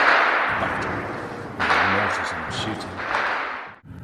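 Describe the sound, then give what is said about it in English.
Gunfire outside a garage in Ukraine, a few sharp, loud cracks, each trailing off in a long decaying rumble. “There's three guys working here, and they've said we can stay, but there's a lot of firing going on outside. We don't know why.”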